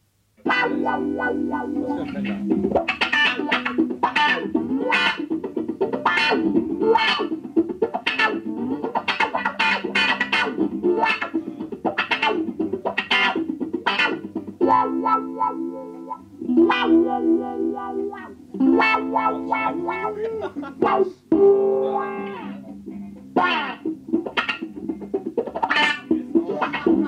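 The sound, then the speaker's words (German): A solo electric guitar plays alone through distortion and chorus effects, picking out phrases of sharply attacked notes with a few short breaks between passages. “Eine elektrische Gitarre für sich allein. Sie klingt nackt und fremd.”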